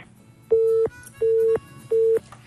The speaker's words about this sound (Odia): ମତେ ଲାଗୁଛି ଆଜି ଫୋନ ଲାଇନରେ ଆମକୁ କଥା କରେଇ ଦବନି, ମାନେ ଏତେ ଭାରି ମାତ୍ରାରେ ୟାର ପ୍ରୋବ୍ଲେମ ଚାଲିଛି ଆଜି।